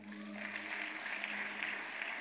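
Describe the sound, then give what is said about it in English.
An audience at a church service applauds a choir with a steady wash of clapping, fairly faint throughout. A low sustained tone runs beneath the clapping. “Please give a round of applause to the choir.”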